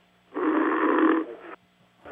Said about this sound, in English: Rhythmic snoring.